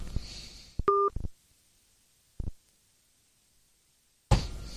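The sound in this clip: A phone keypad tone as a call is placed back to someone on a poor mobile signal: one short dual-pitch beep framed by clicks and a few brief bursts of noise, with quiet gaps between.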